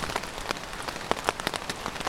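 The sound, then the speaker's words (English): Rain falls steadily on a tent, a dense patter of many small drops with scattered sharper taps, moderately loud and continuous with no talk. “The weather report says it's going to rain almost all day. So I'm just here in my tent.”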